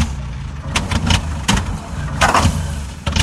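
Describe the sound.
An engine being cranked that won't start: a steady low mechanical rumble broken by irregular sharp bursts, none catching into a running engine.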